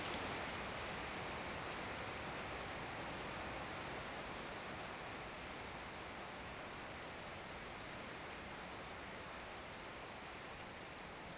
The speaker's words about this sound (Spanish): La lluvia está empeorando.